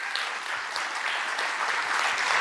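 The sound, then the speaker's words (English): Sustained applause from a class audience thanking the two organisers of the class: a dense, even wash of many hands clapping at steady loudness throughout, with no break. “I want to give them one more round of applause.”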